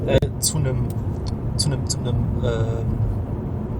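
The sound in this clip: Low, steady road and engine rumble fills the cabin of a moving car throughout, with people talking continuously over it.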